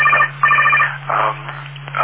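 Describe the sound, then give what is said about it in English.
A telephone ringing in bursts of warbling electronic tone, with about two clear rings followed by fainter tonal fragments, all over a steady low hum. “And my phone is ringing.”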